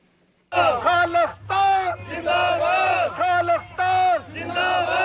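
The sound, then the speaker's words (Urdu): Sikh protesters chant slogans in unison outside the Indian consulate in Houston, demonstrating over restrictions in Jammu and Kashmir. After a brief quiet start, loud rhythmic chanted phrases come in repeated bursts with short gaps between them. “نعرے لگاتے اور صدائے احتجاج بلند کرتے سکھ community کے ان مظاہرین کا موقف ہے”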